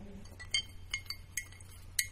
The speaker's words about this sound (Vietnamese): Tú khuấy tròn chiếc muỗng trong ly cà phê.